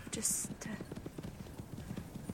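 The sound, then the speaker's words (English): Hooves of two horses clip-clop steadily on the approach, a brisk, even run of many hoof beats that goes on without a break. “They're coming here. The horses. Coming here now.”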